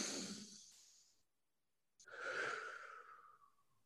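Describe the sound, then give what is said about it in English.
A deep breath drawn in, with two loud breathy rushes separated by a short silence. No talk is heard. “I'm going to ask my viewers to take a deep breath in. So on the count of three, one, two, three.”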